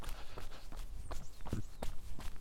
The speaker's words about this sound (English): So I'm starting the run, heading away from town, down the side of the loch,